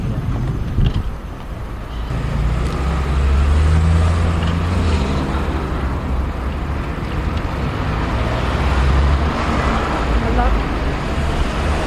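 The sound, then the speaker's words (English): Road traffic at a roundabout at Highbury Corner, recorded while riding a bike: a steady, dense rumble of engines and tyres that swells heavier in the low end through the middle, without a clear individual vehicle standing out. “so this is a roundabout.”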